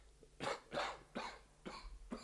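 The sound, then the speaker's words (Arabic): A man with an aching chest coughs in a quick series of five harsh, breathy coughs, moderately loud and unevenly spaced, with no talk. “بعد الجواز بثلاث اشهر لقيت نفسي تعبان وصدري بيوجعني وفي يوم كحيت قدام ورده.”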